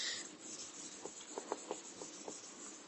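Rubbing strokes of writing being erased from a board: a faint series of short, evenly spaced scrapes over a soft steady hiss.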